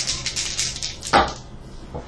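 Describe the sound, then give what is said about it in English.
Four dice rattle onto a table during a tabletop role-playing game: a quick flurry of light clicks, then one sharper knock and a faint final tap. “So roll 4 dice. Any ones are success.”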